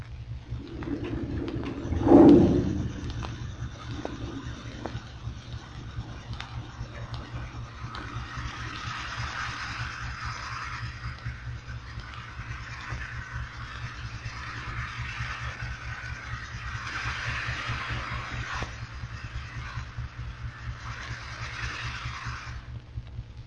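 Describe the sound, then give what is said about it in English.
A submarine blows its ballast tanks to rise from the bottom, picked up on underwater listening gear: a steady low hum, a short thump near the start, then a broad rushing hiss that swells and holds. “Now a sub blowing its tanks to rise from the bottom.”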